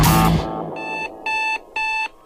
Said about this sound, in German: Mein Wecker reißt mich aus dem Schlaf. Der Wecker explodiert fast neben meinem Ohr.